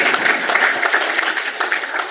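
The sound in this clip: An audience applauds during a talk on school graduation and college enrollment rates. The clapping is brief and crowded, with its loudness rising and dipping slightly as it goes.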